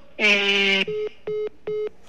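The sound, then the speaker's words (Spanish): Telephone line tones as a call drops: a long, buzzy, harmonic-rich tone is followed by three shorter, evenly spaced beeps at a steady pitch, alone and fairly loud. “Desafortunadamente perdimos la llamada con Idalia González de León.”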